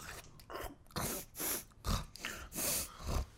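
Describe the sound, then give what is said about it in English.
A voice imitates a creature's deep, powerful snorts as it eats messily, making many loud, gritty bursts that come at uneven, irregular intervals. “And as this thing is eating, it's snorting. Like deep, powerful snorts,”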